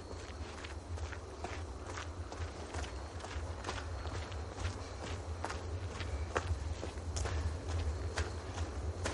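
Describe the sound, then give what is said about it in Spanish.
Footsteps of a young Indigenous man walking along a road while carrying several bundles: many faint, steady steps over a low, constant rumble. “Un joven indígena se acerca caminando y cargado con varios bultos.”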